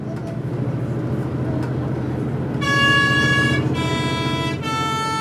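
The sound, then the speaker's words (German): A bus climbs the Maloja mountain pass with a low engine drone, then sounds three sustained horn notes one after another, each at a different pitch, ringing loudly over the engine. “Der Bus quält sich auf den Maloja-Pass.”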